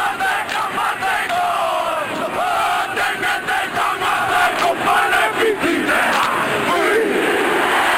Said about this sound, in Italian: L'avete riconosciuta certamente, la haka dei mitici All Blacks, segno che si parla di rugby, segno che si parla della palla ovale